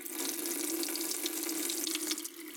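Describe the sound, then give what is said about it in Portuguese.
Tap water running while someone washes their hands, a soft, steady rush of flowing water splashing continuously into a sink with no voices. “Inclusive, cheguei agora da rua. Vou lavar minhas mãos aqui.”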